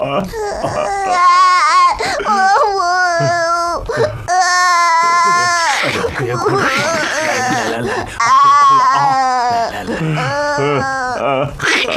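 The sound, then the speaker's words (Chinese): An elderly man crying and wailing: many long, drawn-out sobbing cries in repeated loud bursts with short breaks between them. “你别哭了，你有什么事尽管说嘛，哭什么呀？”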